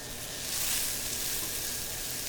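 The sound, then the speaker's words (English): Onions and peppers sauté in a pan for pizza toppings, giving off a steady, soft hiss of sizzling that stays even and unbroken from start to finish. “Next, I start on the toppings. I saute the onions and peppers in a pan.”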